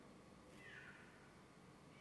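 A cat gives a single faint meow over a steady background hiss.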